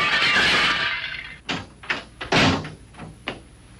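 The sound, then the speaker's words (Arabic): A vase smashes with a loud, dense crash that fades out. A few scattered clattering impacts follow after it. “أأنت التي حطمت هذه الآنية؟”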